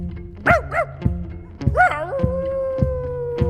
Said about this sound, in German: Muss der Pinscher doch noch einmal Gassi.